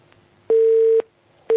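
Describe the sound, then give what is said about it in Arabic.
A telephone tone after a dropped call: steady, mid-pitched electronic beeps in an on-off pattern. One half-second tone is followed by a pause and a second tone starting at the end, with no talk. “الاتصال انقطع.”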